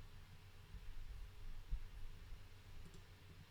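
A couple of faint, soft clicks from pressing the right AirPod, close together near the end over a quiet hiss.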